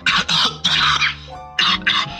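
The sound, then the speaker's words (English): A person coughs in a series of harsh, loud bursts, several in quick succession, then a short pause and two more hacking coughs. “No, that was really me coughing, sorry.”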